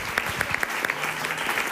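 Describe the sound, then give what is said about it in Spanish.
Audience applause for a guest's aunt, with dense, loud, steady clapping and sharp peaks running through the whole short burst. “un aplauso para mi tía Mari Carmen”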